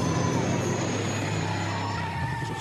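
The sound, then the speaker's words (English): A car drives fast in a video game: a continuous, loud roar of engine and tires with a skidding hiss and a steady high whine, unbroken throughout. “Put in the year 2051 and... what does that say? Drive at speed till flashy happens.”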